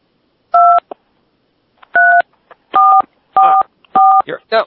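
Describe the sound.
Five telephone keypad buttons pushed, each giving a short, steady two-tone DTMF beep at uneven intervals, with small clicks between the presses.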